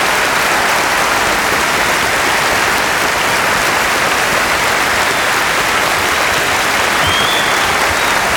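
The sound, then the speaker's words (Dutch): A crowd applauds performers at a live show: loud, steady clapping that stays dense and continuous throughout, with no break or fade. “Give us another enormous applause!”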